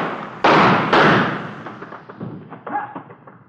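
A gun thrown onto the ground in the dark lands with two sharp, heavy thuds in quick succession. Fainter knocks and rattles follow as it settles, with no voices.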